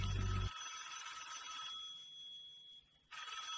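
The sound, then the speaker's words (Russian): Faint telephone ringing as a midnight call is placed to a church: a ring, a pause, then ringing again. “Куда ты хочешь звонить в 12 часов ночи? А я... Что ты собираешься делать, Терри? Мне нужно позвонить в”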